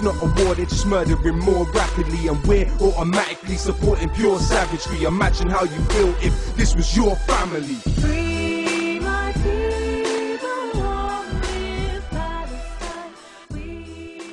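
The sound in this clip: Hip-hop song with a rapped vocal delivered over a loud, dense beat. The backing thins and shifts to more sustained tones in the second half while the rapping continues.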